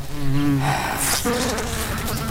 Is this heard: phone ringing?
no